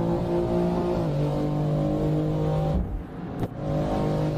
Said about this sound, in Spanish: cómo suena el turbo